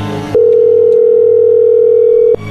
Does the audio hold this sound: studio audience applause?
no

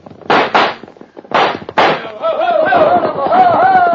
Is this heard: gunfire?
yes

